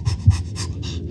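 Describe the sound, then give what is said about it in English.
A human voice imitates Lamaze breathing during childbirth with quick, rhythmic panting: a few short, breathy puffs in a steady pattern, fairly loud and alone. “Lamaze, that method of breathing and relaxing and so forth, had come into play.”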